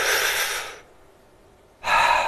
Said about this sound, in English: if you close your eyes and you put your hand on your stomach and you push out with your stomach when you breathe in